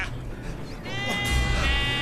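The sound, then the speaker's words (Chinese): A goat bleating as a herd runs loose on a hillside: one drawn-out, wavering bleat in the latter half, over a steady rumbling background. “是山羊回来， 羊回来， 拦住他们！”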